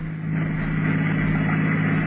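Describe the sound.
A car driving at night: a continuous low engine drone with a steady hum that stays even in pitch and loudness throughout, with no voices.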